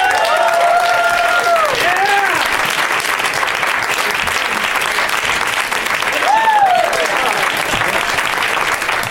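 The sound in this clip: An audience gives loud, sustained applause as comedians Dan Telfer, Pat Francis and TJ Miller are welcomed on stage. A few whoops rise above the steady clapping near the start and again later.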